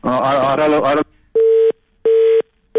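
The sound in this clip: A telephone call cuts off: a voice on the line stops abruptly, followed by two clean, evenly spaced beeps of a disconnect tone at a steady mid pitch, with silence between them.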